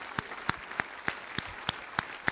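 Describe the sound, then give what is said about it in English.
Rhythmic clapping from a church audience: about eight sharp, evenly spaced claps in a steady beat over a low wash of crowd noise, with no talk. “Give him a great clap offering. Come on.”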